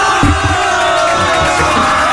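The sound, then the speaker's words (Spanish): An audience applauding and cheering, a steady, dense roar of clapping and voices that stays at an even, loud level from start to finish. “Esa gente merece un aplauso. ¿Puede dar un aplauso, Mr.”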